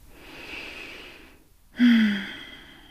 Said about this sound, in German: Und dann atme nochmal tief ein und aus.